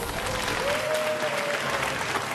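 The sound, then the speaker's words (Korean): Sustained applause from an audience, a dense, steady wash of clapping that holds at an even loudness for the whole stretch with no talk over it. “박수!”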